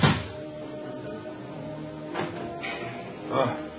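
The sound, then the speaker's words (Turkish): A wooden door being opened in a radio drama scene set in a village house at night: a few short, muffled knocks and scrapes, spaced apart, over a low steady hum. “Çabuk açtı kapıyı!”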